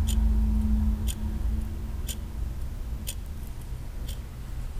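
A clock ticking, with five crisp, evenly spaced ticks about one second apart over a low, steady hum.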